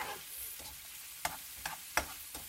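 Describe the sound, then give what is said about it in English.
Diced chorizo fries in a pan with onions, giving a steady crackling sizzle broken by several sharp scrapes of stirring, with no talk. “and I'm now adding the diced chorizo. I'm going to leave that for a second, just to let the oils come out of the chorizo and all that lovely paprika”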